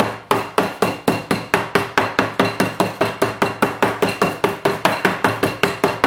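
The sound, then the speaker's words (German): Meat for rouladen is pounded in a kitchen with many sharp, evenly spaced thuds, about four per second, in a steady, unbroken rhythm with no voices. “Wenn ihr das Kloppen hört, das ist kein Techno-Beat, das ist Atmosphäre aus der Gerichteküche.”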